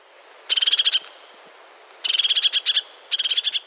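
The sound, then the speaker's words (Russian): Crested tit calling: three bursts of rapid, high trilled notes separated by short pauses, bright and clear against a quiet background. “Потому что меня всегда учили, что ржет еще хохлатая синица, это правда. Послушайте.”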